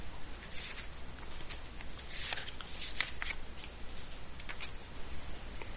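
Cards being handled and drawn from a card deck: continuous soft papery rustling and sliding with a few light ticks and one sharper snap partway through, no talking.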